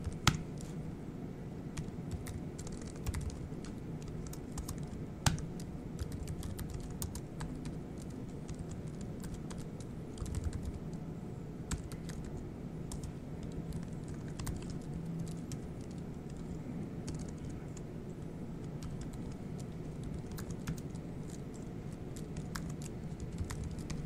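Rapid typing on a computer keyboard in sped-up footage: many fine, quick key clicks patter without a break over a low background hum. The typing is fairly faint and no one speaks.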